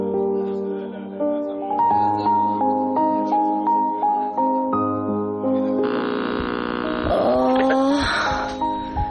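A droning electrical interference hum with layered harmonics pulses in a steady rhythm and shifts pitch in steps. It becomes noisier and more warbling toward the end.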